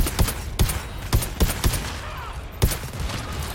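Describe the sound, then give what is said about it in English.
Gunfire in a video game, several sharp, punchy shots at irregular intervals, some in quick succession and others spaced apart, over a steady background of game noise. “It's a big one. I gotta reload. I'm shooting them.”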